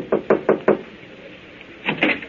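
Knocking on a door: four quick, sharp raps in an even rhythm, then after a pause a few more softer knocks. No voices are heard.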